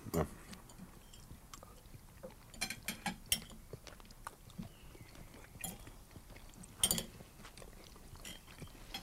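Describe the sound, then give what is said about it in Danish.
Chewing and biting into grilled salmon with crispy skin: faint, irregular crunchy clicks and soft mouth sounds come in scattered bursts, with a few sharper crackles standing out. “Så prøver vi med laksen her.”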